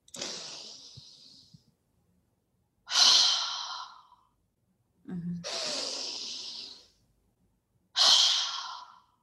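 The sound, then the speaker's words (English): Two deep, full breaths taken as part of a calming breathing technique: four long, airy rushes of air, each swelling and fading, separated by short silent gaps, with no talk. “I can sort myself out in like just two big full breaths”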